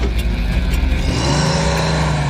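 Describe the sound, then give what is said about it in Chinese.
Car engine accelerating as the driver presses the gas pedal, a loud, continuous engine drone whose low tone climbs slightly in pitch partway through. “当司机踩下油门时”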